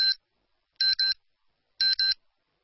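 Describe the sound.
Phone message notification beeps: one short, bright electronic beep, then two quick double beeps, evenly spaced with silence between them and no voices.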